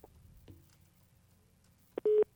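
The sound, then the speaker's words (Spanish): A phone's busy tone follows a dropped call: a short, loud tonal burst arrives near the end, after a stretch of faint low hum. “Ahora sí perdimos la llamada.”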